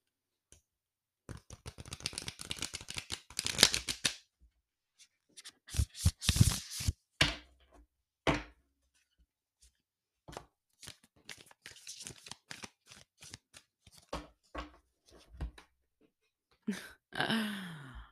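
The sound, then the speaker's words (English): Oracle cards being shuffled before one is drawn for a new moon ritual: several bursts of crisp riffling and papery rustling, separated by short pauses, with a few sharp card snaps near the end. “So yeah, let me pull a card.”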